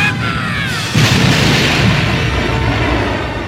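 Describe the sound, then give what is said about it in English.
A chain of internal explosions tears through a space station, building into heavy, sustained booming rumble with a stronger burst about one second in that carries on loudly to the end. “The blast started a chain reaction of internal explosions.”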